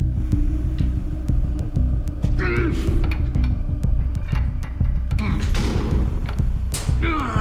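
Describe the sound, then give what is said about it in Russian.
Metal crunches and clanks as a man forcefully turns the round lever handle of a door with a broken lock to the right. Sharp clicks and dull thuds repeat over a steady low rumble. “Крамер сильно поворачивает ручку вправо, слышит сильный хруст и звяканье металла.”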